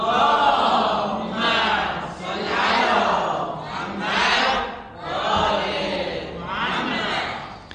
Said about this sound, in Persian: برای استجابت این دعا همه دوستان با صدای بلند یک صلوات بلند مرحمت بفرمایند.